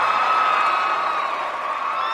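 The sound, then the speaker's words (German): Crowd cheering and whooping in Bouaké, Ivory Coast, after news of a national football team match there, a loud, continuous roar of many voices. “Drogbas Ankündigung sorgt für den vielleicht größten Jubelsturm an diesem Tag.”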